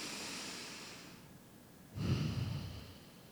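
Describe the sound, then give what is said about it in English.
Deep breaths of fresh mountain air: a long, soft, airy breath fades out, then after a brief quiet gap a louder, rougher breath rushes in with low breathy texture. “Let's take one more deep breath and think about that fresh mountain air.”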